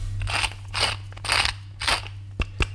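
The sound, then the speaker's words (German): Crunchy ratcheting of a pepper mill grinding whisky pepper: four rough grinding bursts at a steady rhythm, then two short sharp clicks, with no talk. “So, jetzt brauchen wir ein bisschen Pfeffer. Moment. Wir haben 4 Pfeffermühlen und ich weiß immer nicht, welcher Pfeffer wo drin ist. Das hier ist jetzt ein sogenannter Whisky-Pfeffer.”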